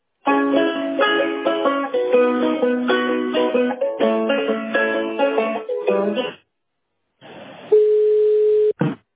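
Telephone dial tone while a number is redialed: a steady, single-pitch hum lasting about a second and a half, following a stretch of melodic music and a short silence, then cut off abruptly.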